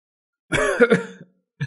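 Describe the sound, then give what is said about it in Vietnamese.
A voice performs two quick, pained coughs in a short, throaty burst, voiced rather than breathy, with a brief catch of breath after a pause at the end. “Ninh Khuyết đau đớn ho hai tiếng, cười tự giễu mà nói:”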